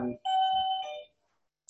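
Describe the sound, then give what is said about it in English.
A doorbell rings with a single clear electronic chime, a bright sustained tone of under a second that quickly fades to silence. “I know that's the bell.”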